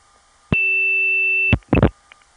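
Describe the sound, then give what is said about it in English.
A 2600-hertz tone put on and taken off a long-distance phone line: one steady, pure, high beep lasting about a second that starts and stops abruptly, followed by a short noisy burst. “What you just heard was my putting on a 2600 hertz tone and then taking it off.”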